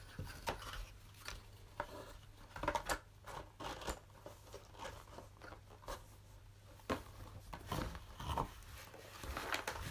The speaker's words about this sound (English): And I'm putting the lid back on. There we go.